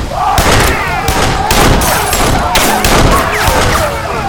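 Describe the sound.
Rapid gunfire from two pistols fired through a gun slit in a stockade on a night of heavy driving rain: many loud, sharp cracks burst in quick succession and overlap, with no pause between volleys.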